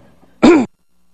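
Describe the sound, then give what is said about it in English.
A single throat clear from someone in a church audience during a sermon, one short, rough burst lasting about a quarter second and standing out against near-silence. “Am I making other people clear their throat now?”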